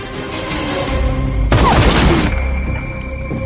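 Gunfire: a sudden loud, harsh burst that lasts under a second, standing out over a constant rumbling background.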